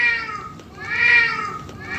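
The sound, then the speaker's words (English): A cat meowing, a few drawn-out, high-pitched tonal meows in quick succession, fairly loud and alone. “With our brave attack cat, Dealey.”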